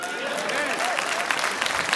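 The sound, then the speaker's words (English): Audience applause, with dense, steady clapping that holds an even level for the whole stretch while a voice talks over it. “You might as well clap on that.”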